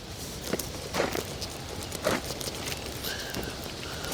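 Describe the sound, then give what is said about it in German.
Footsteps on a bumpy meadow path, a few soft, irregular thuds over a steady background hiss. “Soll ich mal da weitergehen, statt hier rumzustehen? Gehe ich jetzt mal weiter.”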